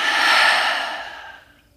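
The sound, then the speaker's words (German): One long, deep breath with a soft, airy hiss that holds steady and then fades away over about two seconds, heard alone. “Atme tief durch die Nase ein und durch den geöffneten Mund aus.”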